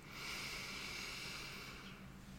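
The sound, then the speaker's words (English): A deep breath drawn in during a guided relaxation exercise, a long, soft, airy hiss of inhalation lasting about two seconds, heard alone without speech. “So, deep breath in,”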